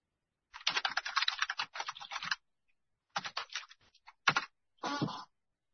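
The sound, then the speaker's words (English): Keys clatter as someone types on a computer keyboard in several quick bursts of rapid clicks, separated by short pauses, with no talking. “Let me type it in here.”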